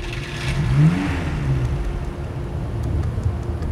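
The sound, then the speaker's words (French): A car accelerates quickly away from a military base, its engine giving a low, steady rumble and whir that holds at a fairly even loudness throughout. “ils roulent rapidement loin de la base”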